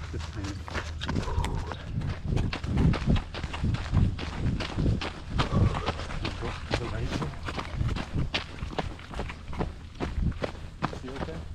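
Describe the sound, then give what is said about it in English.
Many quick, rhythmic footfalls of people jogging, a steady patter of steps running continuously beneath ongoing conversation. “Let's do a little jog right here.”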